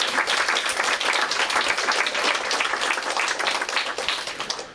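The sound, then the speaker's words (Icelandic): Applause for volunteers at a gathering of an association for the blind: dense, steady clapping from a crowd that fills the whole stretch at an even loudness, then thins slightly at the very end. “Klapp fyrir ykkur, sjálfboðaliðar.”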